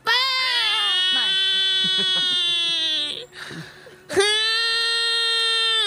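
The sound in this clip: A newborn baby boy cries for the first time: a loud, sustained high wail, a short break of softer sobbing, then another loud wail.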